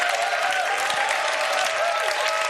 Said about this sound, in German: Lass uns mal unserem Herrn wirklich einen Applaus geben.